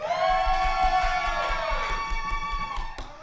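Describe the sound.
Cheering and whooping from a live audience at Screenland Tapcade in Kansas City, Missouri, loud and sustained, with a steady low thumping underneath.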